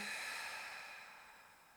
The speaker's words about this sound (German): Nimm gerne nochmal einen tiefen Atemzug durch die Nase ein und durch den Mund aus.